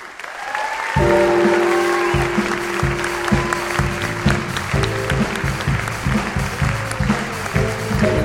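Audience applause and cheers welcome a storyteller on stage. The clapping is dense and steady, and after about a second a rhythmic musical bed with a low repeating bass line joins it and continues under the applause.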